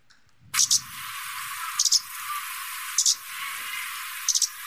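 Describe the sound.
Kamchatka warbler call, a high rattling note given four times at spaced intervals, each call broken into a few quick separated pulses, with a faint hiss between calls.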